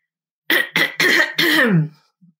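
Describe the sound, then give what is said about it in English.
Throat clearing by a woman: four rough, voiced bursts in quick succession, each fairly loud and abrupt, followed by a brief faint murmur after a pause. “clear my throat while I pull up exactly who it is.”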